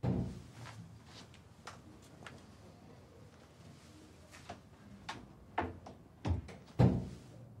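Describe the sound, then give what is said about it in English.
A door to a room being opened, heard as a few faint clicks and knocks over a quiet background, with sharper latch-like clicks toward the end. “A member of staff opens the door to a room”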